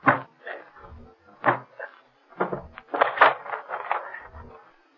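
A door is broken open with a series of uneven wooden thumps and cracks. Several blows are bunched closely together, with brief pauses between clusters.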